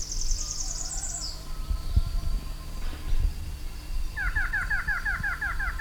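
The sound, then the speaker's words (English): Bird calls from a variable antshrike about 30 feet away: a high, quick trill first, then a rapid series of repeated downward-slurred notes near the end, over a low background rumble. “Bird's about 30 feet away from me.”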